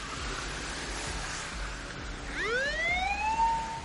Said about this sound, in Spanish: Todos observan tensos un coche de policía que circula por una carretera cercana. El vehículo gira y se aleja.